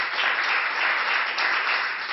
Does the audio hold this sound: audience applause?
yes